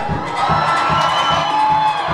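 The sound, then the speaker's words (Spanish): A church audience shouts and cheers for joy in a loud, continuous roar of many voices, with a steady pulsing rhythm running under the din. “Dame un grito de júbilo, iglesia.”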